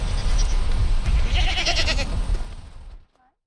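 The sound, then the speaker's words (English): Goats bleat on a farm while being fed, wavering nasal cries rising over a dense bed of steady noise and movement that cuts off abruptly near the end. “The couple was outside and feeding their goats, and Matt Penny was introducing me and my camera person, Josiane, to their flock.”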